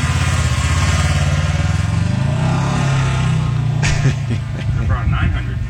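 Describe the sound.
A golf cart drives with a steady, low engine drone that holds an even, continuous hum throughout, with voices coming in toward the end.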